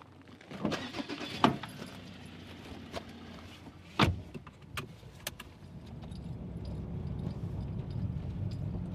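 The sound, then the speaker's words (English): A car drives along country roads between farms near Christchurch, heard as a steady low road rumble broken by a few sharp clicks and rattles inside the vehicle. The noise grows fuller and denser toward the end, and no one speaks. “So at the moment we're heading out to our Carlton Road farm. So we're just driving past our Waimakariri farm”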